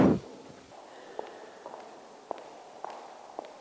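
Footsteps of people walking through a gallery exhibition past a moving-image installation: a few faint, sharp taps at uneven intervals over a low, steady background hum.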